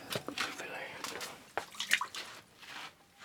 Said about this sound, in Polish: Przymywa go wodą. Powinien być wymoczony. Wylewa wodę.